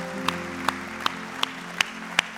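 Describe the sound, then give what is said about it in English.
Rhythmic clapping from a church audience welcoming its online audience: six sharp, evenly spaced claps over sustained background music. “can we put our hands together and welcome our online audience?”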